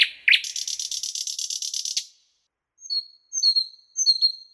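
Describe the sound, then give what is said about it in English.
A nightingale sings alone: a rapid, buzzing trill of evenly repeated high notes runs for about two seconds, then after a short pause come a few brief, clear, high whistled phrases. “The last week with the sound of the nightingale.”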